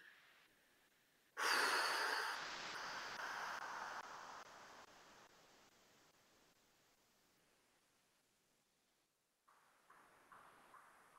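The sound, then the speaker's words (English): Deep, slow breathing: a long breathy exhale starts abruptly and fades gradually over several seconds, followed by fainter breath sounds near the end. Quiet overall, with no talk. “Breathe very deep and very slow, guys.”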